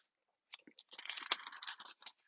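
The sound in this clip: Paper rustles as it gets stuck, producing a dense run of crinkly, crackling bursts and small snaps for over a second and a half, fairly faint, with no talking.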